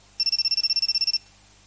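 An electronic telephone ringtone sounds alone as a rapid, high-pitched trill of many short, evenly spaced pulses, lasting about one second before stopping.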